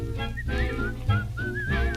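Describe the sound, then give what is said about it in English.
A person whistles a cheerful work-song melody with bright, wavering notes that glide and trill between pitches, heard over low sustained backing tones. “Forget your trouble and try to be like a cheerful chickadee and whistle while you work.”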